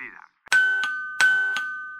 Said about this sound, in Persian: زنگ سومو که بزنی ما در خدمت هستیم.